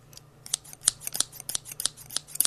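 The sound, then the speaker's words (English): Small scissors snip in a rapid, uneven series of crisp, high metallic clicks, quiet and alone with no voices. “Those little scissors that you had. What are you going to do with those?”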